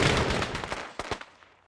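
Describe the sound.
Fireworks going off in a rapid, dense cluster of sharp cracking bangs, with a few separate pops standing out toward the end as the sound thins and fades away.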